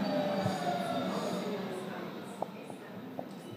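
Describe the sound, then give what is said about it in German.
Interior of a new, crowded train in motion: a steady, broad rumble and hum that slowly fades a little, with a few faint clicks near the end. “Das ist sogar eine neue Bahn.”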